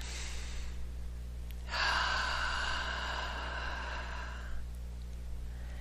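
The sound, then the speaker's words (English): A single long, deep breath is taken during a guided meditation. It makes a smooth, airy rush lasting a few seconds over a steady low hum, with no talk. “another nice deep breath”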